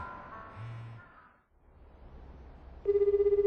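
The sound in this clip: A lost mobile phone ringing: soft tonal sounds at first, then after a brief lull a loud, rapidly pulsing ring tone repeats in a steady rhythm until the end.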